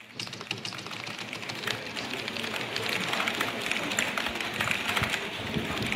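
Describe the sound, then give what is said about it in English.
Rapid keyboard typing as a typist enters strings of nonsense letters at speed, a dense, unbroken stream of many light keystrokes at steady loudness for the whole clip. “is a typist inputting a string of sort of nonsense letters, which prompts a little tiny box to pop up with five or so options, which they then select from with one final keystroke.”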